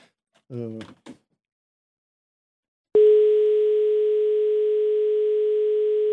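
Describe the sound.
A steady telephone tone sounds as a call comes in. It starts abruptly after a brief spoken phrase and holds at one constant pitch, loud and unbroken, to the end.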